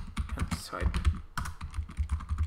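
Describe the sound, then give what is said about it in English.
Typing on a computer keyboard: a busy, uneven clatter of many quick keystrokes, moderately loud and continuous throughout. “I'm going to look it up. Sony smartwatch.”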